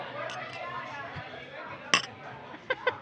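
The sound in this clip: Glasses clink together in a toast, with a few bright ringing taps: one, then a quick cluster near the end, over a low murmur of background voices.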